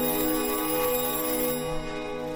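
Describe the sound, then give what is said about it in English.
A telephone ringing at night in a North London home in 1949: a steady, tonal ring sustains across the whole moment and eases slightly in loudness partway through. “In the North London home of Michael Perrin, director of Britain's atomic energy programme, the telephone rings.”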